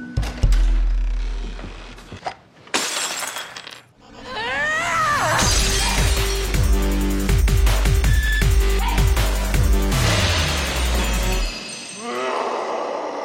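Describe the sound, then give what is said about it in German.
Objects are smashed in a rage room: a few sharp breaking crashes, then a dense run of repeated impacts with glassy shattering and clinks over a loud, continuous layer. “in der Szene, die wir gerade gehört haben, wird die Protagonistin Anne Carlson von ihrem Mann mit einem Besuch im Rage Room überrascht.”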